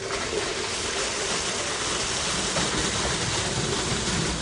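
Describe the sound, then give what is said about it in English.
Hauled water from another town's public supply being pumped into a home well in Jefferson, Maine, heard as a continuous, loud, even rushing hiss without pauses or voices. “The water being pumped into their well was hauled here from the public water supply of another town”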